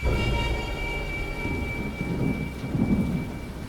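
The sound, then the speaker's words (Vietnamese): Thunder rumbles low and continuously with a steady rain hiss throughout, swelling slightly toward the end in a heavy storm. “Tiếng sấm động vang vọng”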